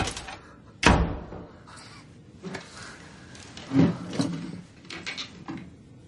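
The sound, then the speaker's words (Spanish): A door shuts with one sharp, loud thud as someone leaves an apartment with a bicycle, followed by softer scattered knocks and shuffling. “sale del apartamento. Cierra la puerta.”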